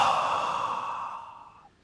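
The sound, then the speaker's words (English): A slow, deep belly breath released in a long, airy exhale during a calm breathing exercise. The breath is heard alone and fades steadily over almost two seconds. “Let's breathe slowly in through our noses and slowly breathe out.”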